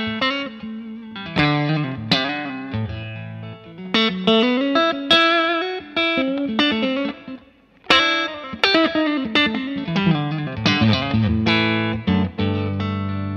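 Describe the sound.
An electric guitar played on its neck pickup rings out in phrases of picked notes and chords. It has a full low end, a distorted, chorus-like effected tone and reverb, with a short pause partway through.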